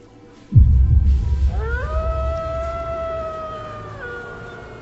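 Vicious dogs howl. After a sudden low burst, a long, drawn-out howl rises in pitch, holds a steady tone and then dips near the end, fading slowly.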